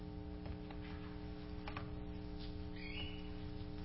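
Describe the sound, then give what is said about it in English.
A bird chirps indoors with a brief, faint, high chirp late on over a steady low hum. “What was that? I have a birdie in here.”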